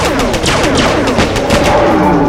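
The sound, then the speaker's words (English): Dense, loud gunfire from four military-grade automatic rifles firing reinforced rounds, along with a lasgun and an assault pistol, forms a continuous rattling barrage of overlapping shots with no voices. “We opened fire. Four military-grade auto rifles, firing reinforced rounds with 50% more grain in them than standard.”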